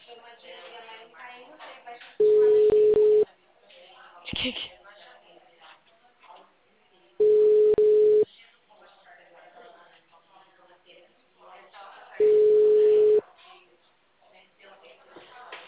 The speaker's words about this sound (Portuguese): É que eu tava esperando o meu cliente atender, por isso eu não tava ouvindo você falando. O número está ocupado.